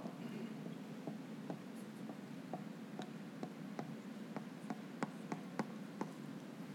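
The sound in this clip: Drawing strokes as a speaker sketches a funnel diagram during a talk: many faint, short scratching taps in an irregular rhythm over a steady low hum, with no one speaking.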